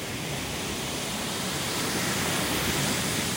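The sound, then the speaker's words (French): Sea waves form a steady, broad hissing wash with no breaks, swelling slightly in loudness toward the end. “Eh oui, c'est ce qu'on appelle el burrito del mar. Non, gracias. Le bruit de la mer.”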